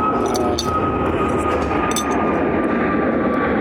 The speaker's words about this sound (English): What we're going to do is wait for a plane.